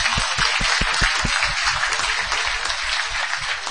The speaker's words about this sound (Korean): 우리 애들 위해서 박수 한번 칠까요?